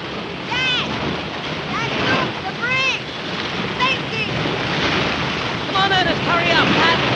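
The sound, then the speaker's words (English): Large, roiling sea waves around a small boat being paddled away from a ship: a constant surging wash mixed with wind noise, with wavering higher tones repeatedly cutting through above it. “Now, a fog rolls in as the boys paddle away from the ship on large roiling waves.”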